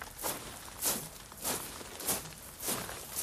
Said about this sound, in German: Es wird marschiert. Es läuft. Ich hör's.